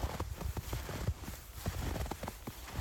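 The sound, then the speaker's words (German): Footsteps crunch through snow at a steady walking pace, with many soft, gritty steps, faint and alone. “wir gehen weiter im Schnee, es ist wirklich zauberhaft.”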